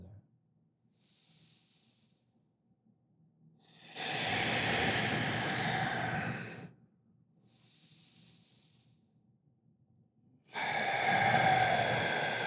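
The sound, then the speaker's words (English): Slow, deep breathing, in and then out through the mouth, during a guided relaxation exercise. Soft, airy inhales alternate with two long, loud, breathy exhales at an unhurried, even pace. “You can let it out through the mouth. Breathe in how you want to feel.”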